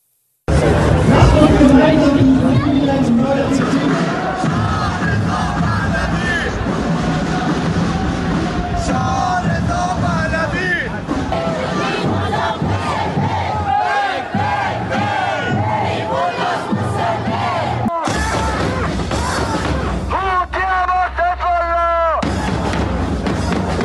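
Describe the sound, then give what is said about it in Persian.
A large crowd at a street rally in Hanover, Germany, supporting protests in Iran on the anniversary of Mahsa Amini's death, chants and shouts loudly and without pause throughout, a dense mass of voices. “مقیم هانوفر آلمان نیز روز جمعه 27 شهریور ماه همزمان با چهارمین سالگرد جان باختن مهسا امینی با در دست داشتن نمادهای ملی و تصاویر او تجمعات خیابانی برگزار و اعتراضات مردم ایران حمایت کردند.”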